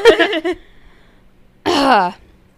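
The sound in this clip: Phlegmy throat clearing from a woman who is pregnant: a few rough, voiced bursts in quick succession, then a pause before a longer voiced sound.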